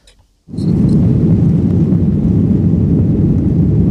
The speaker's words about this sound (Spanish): Y ya estamos a bordo de un avión de Iberia, estamos a punto de aterrizar